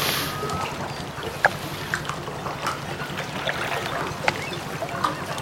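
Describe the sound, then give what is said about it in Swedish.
Water laps and clucks against a boat in a soft, continuous, low slosh, broken by a few light knocks and drips. “Fnula på det medan ni hör lite båtkluck.”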